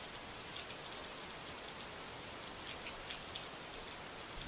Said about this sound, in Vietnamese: Trên cao, cơn mưa mù mịt và sấm chớp nổ đùng đoàng.